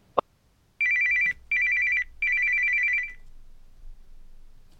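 An incoming call rings a telephone in three loud, high warbling bursts, the last one longest. A sharp click comes just before the ringing, and only faint low hum follows it.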